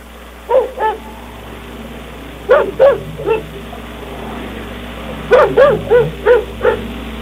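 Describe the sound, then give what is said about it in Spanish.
Dogs bark close by on a cold evening in rhythmic bursts: two barks, then three, then a run of about six. The barks sound over a steady low hum, with no talk. “Los ladridos de los perros ahora más cerca.”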